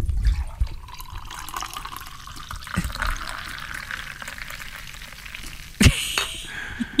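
Cola zero poured into a glass gives a steady, fizzy hiss of liquid that runs the whole time, with a sharper splash or clink near the end.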